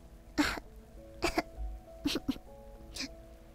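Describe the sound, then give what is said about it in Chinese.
A person fakes a few short, dry coughs, each a separate spaced burst, a voice imitating a cough over soft sustained background music. “于是，他假装咳了几声。”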